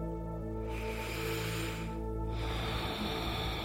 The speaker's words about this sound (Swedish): Du kan först ta några vanliga andetag genom båda näsborrarna och kanske till och med sucka ut genom munnen för att landa.